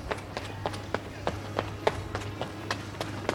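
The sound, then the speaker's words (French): Footsteps passing by: a steady run of many quick, evenly spaced steps, faint and crisp, over a low constant hum. “Trois, pas qui dépasse.”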